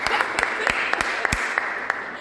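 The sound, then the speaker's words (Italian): Light applause at a literary event celebrating an author's published works, with sparse, distinct handclaps popping out over a soft, steady background wash. “L'applauso è mio!”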